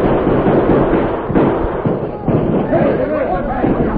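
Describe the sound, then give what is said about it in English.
Soldiers' carbines and outlaws' guns exchange fire in a nighttime fight on a hillside, with sharp cracks and thuds scattered under loud, overlapping shouting from men. “Alert soldiers responded quickly, firing their hard-hitting carbines at the flashes of the outlaws' guns.”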